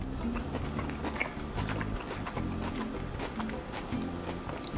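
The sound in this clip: Chewing of a salad with cherry tomatoes and blue cheese, a run of repeated moist crunches and bites at a steady moderate level.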